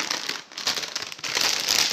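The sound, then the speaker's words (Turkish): Crinkling plastic of a bag of salted potato chips being torn open, a loud, continuous crackle with a brief dip partway, then rising again, no voices. “Cipsimizi açıyoruz.”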